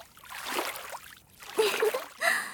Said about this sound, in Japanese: みんなはすっかり泳ぐことと遊びに夢中。これから私たちこのプールの中で